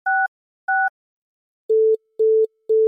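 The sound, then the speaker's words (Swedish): A telephone line tone plays on a call to an old number unused since the late 1990s: two short, higher dual-pitched beeps, then three longer, lower steady tones with even gaps, clean and with no voices. “vi testar det här numret. Jag tror ingen har testat att ringa dit sen slutet på 90-talet.”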